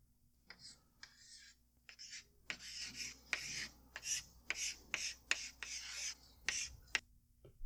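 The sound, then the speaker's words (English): Chalk scratches out a name on a chalkboard in many quick, dry strokes of uneven length. The scraping is faint and comes in a loose, broken rhythm. “That's when the little girl is writing the name on the chalkboard.”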